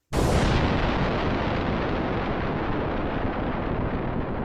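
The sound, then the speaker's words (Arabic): A bomb explodes nearby: one sudden, loud blast, then a dense, roaring rumble that holds for several seconds and slowly fades, with no voices. “إليكم قنبلة انفجرت قربنا.”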